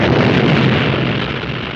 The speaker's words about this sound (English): Huge explosion.